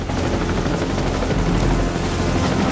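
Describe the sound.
Helicopter rotors and engine roar steadily and loudly in a rainy jungle clearing, a dense, unbroken wash of noise from start to finish with no voices.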